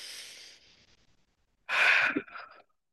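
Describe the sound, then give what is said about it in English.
A big breath in and out: a soft, airy inhale fades, a brief silence follows, and then a loud, forceful breath out trails off. “Okay, everybody, big breath. Here we go,”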